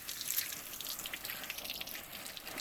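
Water poured to rinse hair, heard as a faint, continuous splashing trickle with small uneven surges and no talk.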